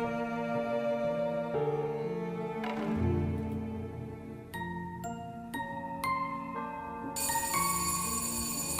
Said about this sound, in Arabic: جرس الباب رن، سمعت الصوت